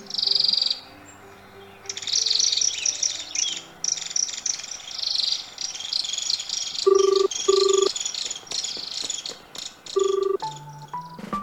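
Birds with green and red feathers that eat seeds and nest in tree hollows and house roofs call in dense, high-pitched chirping chatter. The chirps come in bursts, with a few lower, steady tones breaking in, and no one speaks.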